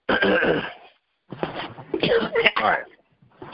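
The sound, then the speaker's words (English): Throat clearing: rough, gravelly vocal rasps in bursts. A first burst is followed after a short gap by a longer, broken run, then a brief start of another. They sound loud and close, with no words spoken. “Let me clear my throat.”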